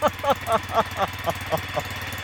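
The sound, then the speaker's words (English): A car engine with a loud aftermarket exhaust burbles at idle in regular, evenly spaced throbbing pulses over a low continuous rumble. “I was a bit worried it didn't sound like a Tuk Tuk. Right. I was just worried, like we were just talking about, whether it sounded like a Subaru or a... It's a cross. Yeah. It's definitely a midlife crisis exhaust, I think.”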